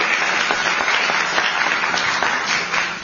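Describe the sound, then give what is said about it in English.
Audience applause at a political speech, a steady crowd of clapping hands that holds at an even loudness for about three seconds and eases slightly at the end. “And she deserves a round of applause for a day like today.”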